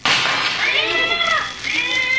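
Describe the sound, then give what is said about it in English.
A cat meows loudly in a long, wavering yowl that rises and falls, then a second cry follows near the end. “Oh, it's a cat.”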